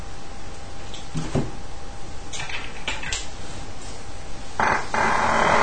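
A wooden humidor box is shut and locked, its latch mechanism drawing the lid tight. A few soft wooden knocks and clicks are spaced apart, then a louder, fuller burst at the end, with no talking.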